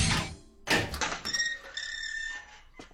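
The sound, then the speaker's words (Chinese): A school building's door, its lock key snapped off, is pushed open: two soft thuds, then a thin, drawn-out tonal squeak that lingers faintly. “唐默一掌将钥匙击断，推开了这扇门”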